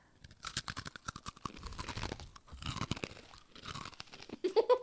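Crunching on hard snacks that smell like churros: many sharp, irregular crunches come in dense bursts of chewing and biting, fairly loud and with no talk.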